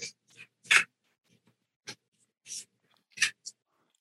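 Paper being folded by hand gives a few crisp, dry crinkling rustles. They come as short separate bursts with quiet gaps between them.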